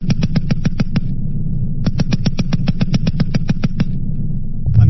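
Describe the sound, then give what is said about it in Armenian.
Automatic gunfire from advanced weapon systems test-fired at a military training range in Georgia: two rapid bursts of sharp, evenly spaced shots, a short first burst and a longer second one, over a steady low rumble. “Ամերիկացի և վրացի զինվորական հրահանգիչները Վազյանի փորձադաշտում ցուցադրել են այդ զենքի կարողությունները փորձնական կրակոցներ արձակել։”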